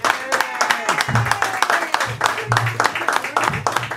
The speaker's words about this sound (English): I heard claps.